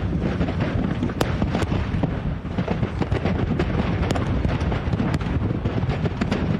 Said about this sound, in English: Did you see that thing? That was a missile.